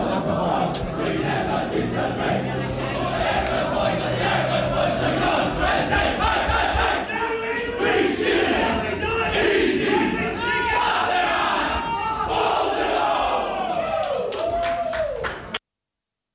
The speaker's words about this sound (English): That was Yarra Glen cheering at the end with Bonnie Anderson singing the national anthem as some of the highlights from the 2018 Yarra Valley Pride Cup, celebrating 5 years of Rainbow Pride through footy in Yarra Glen.